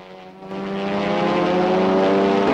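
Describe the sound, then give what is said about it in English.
Propeller fighter planes in flight, among them Japanese fighters, make a steady droning engine hum with a strong harmonic tone. It swells louder over the first second and then holds. “the Flying Tigers home in on the Japanese fighter planes.”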